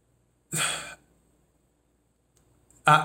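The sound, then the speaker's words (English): A deep breath: a short, breathy intake of air about half a second long, then near silence, and another loud burst of breath at the very end. “I had to take a breath. I had to take a breath because what I'm about to say is gonna, I know it's gonna ruffle some feathers”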